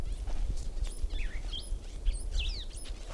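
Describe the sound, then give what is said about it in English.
Bird calling in the background: many quick, high chirps and sweeping whistled notes in an irregular series over a steady low rumble, fairly faint. “Another bird in the background.”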